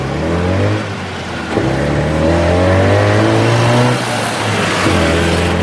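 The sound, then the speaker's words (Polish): Engine of a three-wheeled taxi revving, a loud continuous motor drone whose pitch climbs in surges as it accelerates, with no voices. “Złapałam taksówkę, a dokładnie bardzo popularny tu trójkołowy pojazd.”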